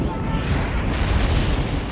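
Bombs dropped in an airstrike on Taliban positions explode on impact, making a dense, continuous, deep rumbling roar with no clearly separate blasts, loud throughout.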